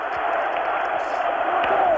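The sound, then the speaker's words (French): A large crowd cheers and acclaims the French head of government with a dense, continuous roar of voices that holds at a steady, loud level throughout the short stretch. “Entendez la foule qui l'acclame, de Gaulle, de Gaulle.”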